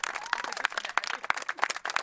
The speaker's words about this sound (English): They cheer.